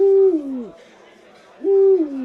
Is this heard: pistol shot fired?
no